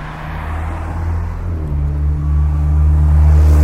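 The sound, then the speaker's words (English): A car passes on a street beside a pedestrian walking to a bus stop on a cold night, its low engine rumble swelling steadily louder toward the end with no voices. “And the car's gone by.”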